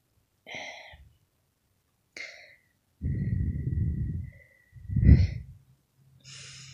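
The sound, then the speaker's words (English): Soft blowing breaths imitate cold breath on the nape of someone's neck: two long, airy exhales, the second stronger, set between short breathy whisper-like puffs, intimate and close with no spoken words. “feel my cold breath on the nape of your neck.”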